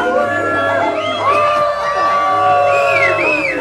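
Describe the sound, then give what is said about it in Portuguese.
A crowd of children boos and jeers, with whooping, wavering shouts that rise and fall in pitch over a continuous, loud mass of young voices. “O pobre homem soprava, a flauta desafinava. E a criançada vaiava.”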